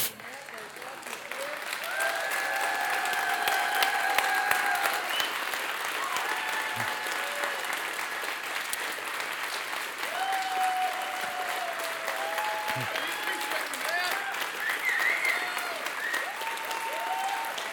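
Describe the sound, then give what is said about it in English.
A church audience stands and applauds in steady, sustained clapping that swells and keeps going for many seconds, with scattered voices and cheers rising over the clapping. “if everybody stand up, give a round of applause for”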